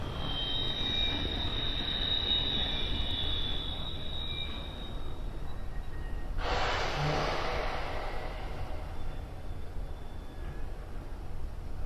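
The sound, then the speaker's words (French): Train wagons rolling on rails, heard as a steady, dense rumble that never lets up, with a high, thin squeal in the first few seconds. “J'ai beaucoup de wagons pour la Suisse.”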